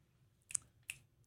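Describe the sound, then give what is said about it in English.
Fingers snap a few times, the sharp dry clicks faint and spaced apart over a quiet background. “Snaps. That's so beautiful.”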